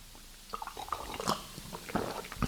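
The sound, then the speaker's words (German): Sips of Christmas punch during Advent: several faint, wet slurping and mouth sounds in short irregular bursts, with no voices heard. “Ich trinke jetzt erst einmal einen Punsch.”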